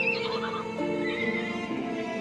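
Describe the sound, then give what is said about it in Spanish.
A little horse with a broken leg crying out in a long, wavering whinny with rich harmonics, the pitch sliding and quavering at steady loudness throughout, alone without talk. “un conejito que pasó por ahí escuchó el llanto del caballito Juan”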